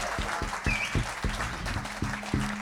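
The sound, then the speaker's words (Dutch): Audience applause at a jazz concert for the vocalist, steady, moderately loud clapping from many people that keeps an even level for under three seconds. “Nog één keer een heel groot applaus.”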